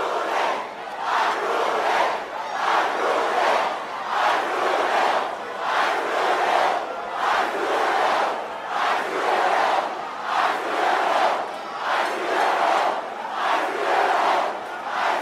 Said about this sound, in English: A round of applause. Make some noise for everybody that came out here tonight.